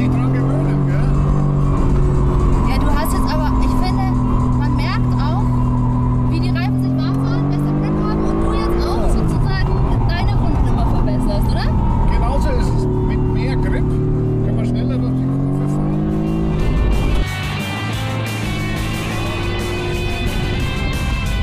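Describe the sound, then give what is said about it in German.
A 585-horsepower sports car used as a race-track taxi accelerates hard, its loud engine drone climbing in pitch and dropping back at several gear shifts before climbing again. “Das Ringtaxi The Beast, 585 PS und ebenfalls von 0 auf 100 in 3,6 Sekunden. Und ab geht's ins Yokohama S und dann in die Mercedes Arena.”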